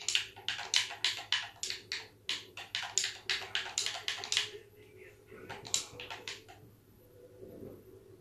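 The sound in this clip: Rapid keystrokes on a computer keyboard while typing a message into in-game chat during a combat flight game: a steady run of many sharp clicks, then a short pause and a few more taps over a low hum.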